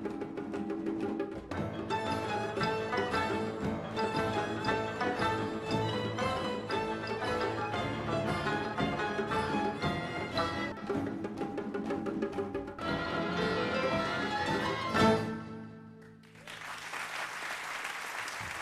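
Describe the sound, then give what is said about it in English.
An orchestra of 35 Afghan women, led by a 19-year-old, plays dense, steady ensemble music that swells to a peak near the end, then gives way to a wash of audience applause. “What you just heard was the Zora Orchestra, an ensemble of 35 Afghan women led by this week's femme”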